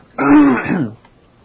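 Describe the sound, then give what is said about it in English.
A single throat-clearing cough: one rough, harsh vocal burst lasting under a second, loud against near-silence, with no talking. “I was not the one coughing, and you know that.”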